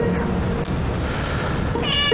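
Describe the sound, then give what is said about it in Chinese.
A cat meows briefly near the end, a short high, tonal cry rising above a steady, dense background noise that runs throughout. “这谁的猫啊？”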